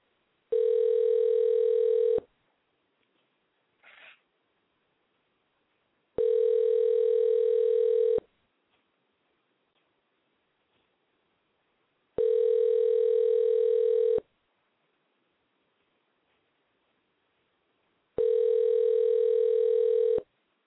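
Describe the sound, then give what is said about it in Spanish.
Telephone ringing tones while calling someone back: four long, steady electronic tones, each about two seconds, evenly spaced with silent gaps between them. “parece que se nos perdió la llamada, pero vamos a volver a llamarle a nuestro amigo. Vamos a ver qué pasó.”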